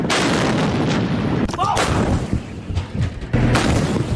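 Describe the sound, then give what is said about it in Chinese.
An artillery gun fires live rounds during a day-and-night live-fire drill, with a couple of sharp, heavy booms standing out over continuous rumbling background noise. “一发装填，预备放。”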